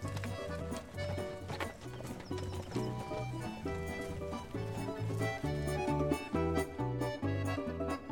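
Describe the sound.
Hooves of horses being ridden clip-clop in a steady, rhythmic patter of hoofbeats, set against tuneful musical accompaniment at moderate loudness.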